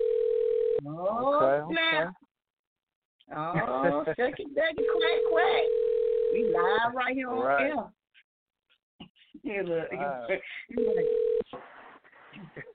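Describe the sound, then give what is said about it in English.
A steady, low-pitched telephone dial tone sounds while a number is dialed for a live radio call-in. The tone comes in three stretches, one long and two short, between people talking. “I'm about to dial. Uh-oh, I'm dialing the number.”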